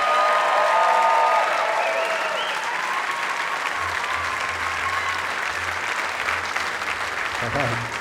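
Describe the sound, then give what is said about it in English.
Audience applause welcoming a performer at the Newport Folk Festival, a steady wash of clapping that holds for about eight seconds, with a low hum entering partway through. “So keep your hands together and give a Newport Folk Festival welcome to Tuck Andrus.”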